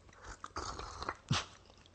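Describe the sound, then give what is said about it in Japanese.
Someone eats thick Okinawan mozuku seaweed in vinegar from a pack. A few soft, wet bites and slurping chews are heard quietly, with one sharper slurp near the end. “えー、パックに入ってるのがいいねはい、沖縄もずくって太いんだよね能登のもずくそう3倍ぐらいあるんじゃないかないただきます”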